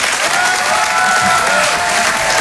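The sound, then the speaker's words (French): Audience applause, an ovation from a crowd at a live show, with dense, steady clapping that stays loud throughout and no talking over it. “Je vous demande de l'encourager très chaleureusement, de faire une ovation, s'il vous plaît, à Karine Dubernet.”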